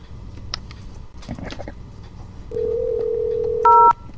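Telephone tones as a number is dialed: a steady low tone holds for over a second, then a short, louder two-tone keypad beep follows over faint background noise.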